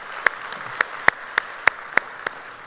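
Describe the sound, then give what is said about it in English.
Sparse applause at a church service: about eight sharp, separate claps at an even pace, fairly soft against a quiet background. “So if you would put your hands together, welcome them to our study of God's Word today.”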